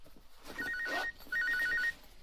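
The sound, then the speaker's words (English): A telephone rings in two trilling bursts with a short gap between them, fairly quiet over a soft background. “Isn't that your phone?”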